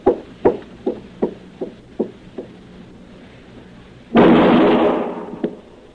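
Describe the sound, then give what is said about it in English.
Gunshots fired in an alley: a quick run of seven sharp pops that grow fainter, then, after a pause, a louder, longer noisy burst and one more pop. “All right, that's enough shooting, Chester.”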